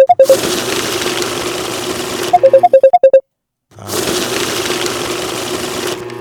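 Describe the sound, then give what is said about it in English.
A money counter whirs as it counts banknotes, a loud fluttering buzz broken by bursts of short electronic beeps. The whirring cuts out for a brief silence, then starts up again and continues to the end. “Hold on, y'all. Let me let the money counter play.”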